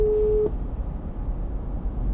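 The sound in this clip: A telephone call tone sounds on an unanswered call: a single steady, mid-pitched beep lasting about half a second, then it stops, leaving a low, rumbling background.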